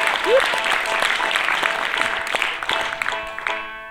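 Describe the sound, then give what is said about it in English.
Applause from a live show audience welcoming the sound technician: steady, dense clapping sustained for about four seconds, loud at first and gradually thinning toward the end. “Let's also have a big hand for our sound man up there.”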